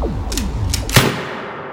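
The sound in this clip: A single sharp rifle shot cracks out after a series of sweeping whooshes, followed by a lingering, fading tail.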